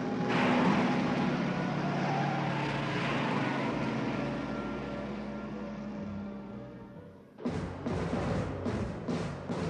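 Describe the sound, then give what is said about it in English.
A convoy of police patrol cars and vans drives past in a loud, broad, continuous roar that eases slightly over several seconds. It then breaks into a choppy, pulsing rush near the end. “He swerves into a siding as a convoy of police vehicles head in the opposite direction.”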